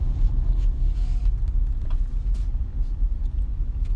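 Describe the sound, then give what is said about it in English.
Car driving in the rain on a Houston road, heard as a steady low road rumble and engine drone from inside the vehicle, continuous and even throughout. “I don't know what it is with driving in the rain here in Houston”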